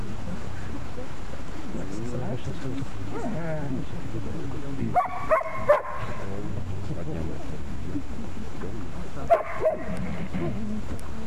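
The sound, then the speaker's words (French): Dogs barking: a few sharp barks or yips come in two short bursts, heard beneath a steady stream of people talking. “Les chiens.”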